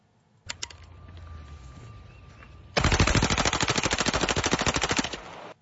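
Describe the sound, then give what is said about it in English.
Rapid gunfire from an AR-15 semi-automatic rifle fitted with a bump stock: a few sharp mechanical clicks, then a long, loud, unbroken string of fast shots lasting over two seconds before stopping abruptly. “Which apparently has a bump stock on it. Because he only pulls the trigger once.”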